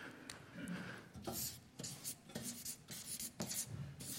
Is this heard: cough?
no